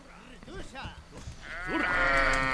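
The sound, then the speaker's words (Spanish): Sheep bleating somewhere in the Middle East: a few wavering, nasal bleats, followed by louder, longer and denser bleating toward the end. “Escuchamos las ovejas por algún lugar de Oriente Medio.”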